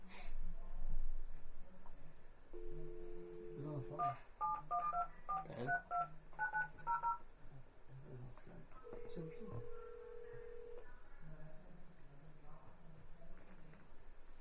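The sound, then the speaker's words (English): Telephone tones sound under people talking: a short steady tone, then a quick series of touch-tone dialing beeps, and later another longer steady tone, all fairly faint. “That's the phone.”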